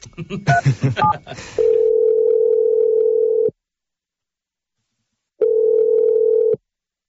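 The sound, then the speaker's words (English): Telephone number being dialed: a few quick tones at the start, then two long, steady, mid-pitched ringing tones separated by a stretch of silence. “I'm going to dial her number right now.”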